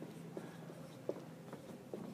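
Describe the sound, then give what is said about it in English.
Faint scratching of a pen writing dates on paper: a few soft strokes and small taps scattered across a quiet background. “I'm going to write these dates down for you because I want you to look at these dates and coinciding with the important date.”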